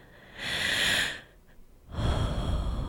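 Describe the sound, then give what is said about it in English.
Deep breathing: two long, audible breaths, a hissing airy intake and then, after a short pause, a broader, heavier breath, with no talk. “Deep breaths.”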